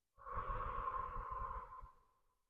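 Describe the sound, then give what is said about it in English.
A single long, soft breath during a breathing exercise of inhaling through the nose and exhaling through the mouth: a faint, airy hiss over a low rumble that holds steady, then fades out. “So we're going to inhale through our nose and exhale through the mouth.”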